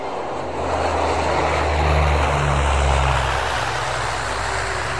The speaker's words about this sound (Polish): Ryk motorów gwałtownie zmienia tonację.